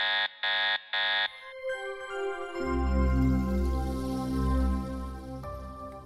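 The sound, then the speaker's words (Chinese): A robot's system warning alarm sounds as three short, evenly spaced electronic beeps. A sustained, shifting synthetic tone follows. “瑞博的系统发出了警告的声音”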